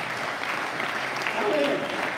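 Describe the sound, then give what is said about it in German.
Applause from an audience during a church service: a steady, fairly soft patter of many hands clapping, with a brief voice rising over it near the end. “Gebt den beiden mal einen Applaus.”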